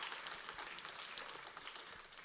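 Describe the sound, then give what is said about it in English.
Faint applause from a church audience during a Sunday service, a steady wash of many hands clapping together without any clear voices. “Yeah, it deserves some applause, doesn't it? Well done, everyone.”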